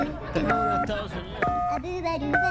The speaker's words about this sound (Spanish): Le voy a marcar de inmediato, amigo. Vamos a marcarle de inmediato al presidente. Número de Estados Unidos.